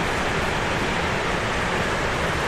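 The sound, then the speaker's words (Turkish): Excess water rushing out through opened floodgates of full dams on a mountain stream: a steady, dense, unbroken roar with an even hiss across the whole clip and no separate events. “baraj kapakları açıldı. %100 dolan barajlardaki fazla su tahliye edilmeye başlandı.”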